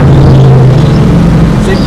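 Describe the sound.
A car engine runs at an event with other competitors, giving a loud, continuous low drone with a steady hum and a voice talking over it.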